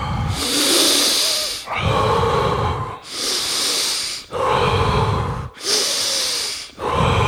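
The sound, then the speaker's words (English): Deep, steady breathing in and out during a guided breathing exercise: about three slow, even cycles of loud, airy inhales and exhales, with no talking. “just breathe in and out, in and out at a nice steady pace.”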